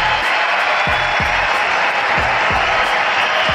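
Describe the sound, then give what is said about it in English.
A baseball crowd at U.S. Cellular Field salutes pitcher Chris Sale with a steady, dense roar of cheering and applause that stays loud and even throughout, with repeated low thumps underneath. “Congratulations, Chris Sale. Here's what they sound like at U.S. Cellular, saluting one Chris Sale.”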